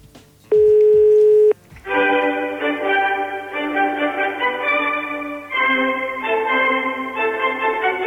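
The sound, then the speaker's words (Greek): A telephone call being placed to the Greek prime minister's office: a single steady tone lasting about a second, then a continuous run of bright, electronic, tune-like notes that carries on to the end. “θα πάρουμε τηλέφωνο στο Μέγαρο Μαξίμου”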